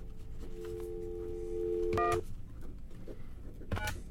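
Faint telephone dialing tones from a cheap phone: a steady electronic tone, then two short keypad beeps, quiet over a murky background hum.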